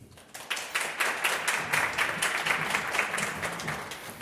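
Audience applause for the evening's guest, an actress, at a live recording in a museum café in Hradec Králové: dense, even clapping from many hands that starts after a brief quiet moment and continues throughout.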